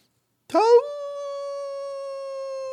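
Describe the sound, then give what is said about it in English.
A human voice imitates a coyote howl: one long howl that sweeps upward at the start, then holds a loud, steady, sustained pitch until the end, with nothing else beneath it. “If you're the captivating coyote, howl two times.”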